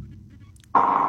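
A phone-in caller's line cuts off: a faint low hum gives way abruptly to a loud, steady line tone with a strong mid-pitched buzz that holds unchanged to the end.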